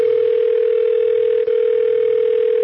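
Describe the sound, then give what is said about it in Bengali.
Steady telephone line tone as a call to a police inspector goes unanswered: a loud, unbroken mid-pitched hum held throughout, with a tiny dip midway and no voices. “Phone বেজে গেল কিন্তু কেউ ফোনটা ধরল না, কারণ inspector সাফাত”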